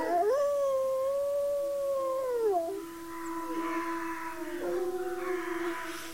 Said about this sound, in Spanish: Y con este sonido maravilloso de los lobos aullando